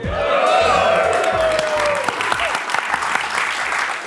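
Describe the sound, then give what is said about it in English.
A live cinema audience at a film premiere shouts hello back in a loud burst of voices over clapping, followed by continued applause with sharper individual claps. “Can I get a hello from the audience?”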